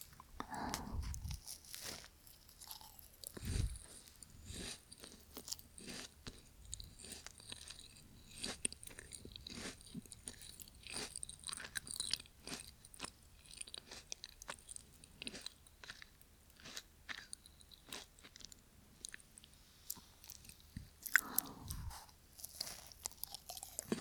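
Crunchy food being chewed and bitten, with many crisp crunches in an irregular rhythm throughout, mostly moderate in level with a few louder bites near the start and end.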